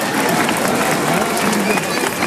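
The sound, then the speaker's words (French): Crowd applause for the volunteers at a football club's end-of-season gathering: a dense, steady wash of clapping that holds at an even, loud level for the whole stretch. “je vais vous demander un tonnerre d'applaudissements pour tous les bénévoles, s'il vous plaît.”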